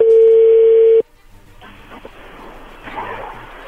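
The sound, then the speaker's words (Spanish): A loud, steady telephone tone holds for about a second as a number is dialed, then cuts off abruptly, leaving faint crackly line noise. “ahí se está marcando”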